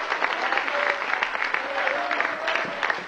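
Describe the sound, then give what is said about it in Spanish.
A church audience applauds during a service, producing a sustained, dense wash of clapping that stays loud and steady throughout. “a su nombre fuerte ese aplauso, si es para él,”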